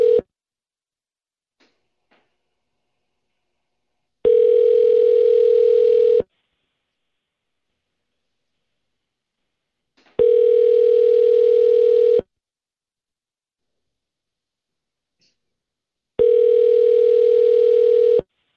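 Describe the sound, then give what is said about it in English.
Ringback tone of a telephone ringing on an outgoing call: a steady single-pitched tone sounds three times, each ring about two seconds long, separated by roughly four seconds of silence. “One more try? Because it's so much fun to listen to a bunch of ringing.”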